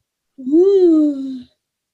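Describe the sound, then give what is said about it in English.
A drawn-out vocal yawn: one voiced sound that rises, then slides slowly down in pitch over about a second, heard alone. “Ooh. I'm yawning.”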